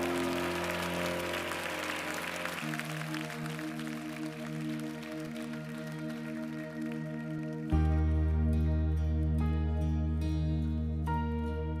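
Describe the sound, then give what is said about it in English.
A church audience claps hands in praise during a worship service, a steady patter of applause blended with sustained, loud musical chords. “Give Jesus a hand clap of praise.”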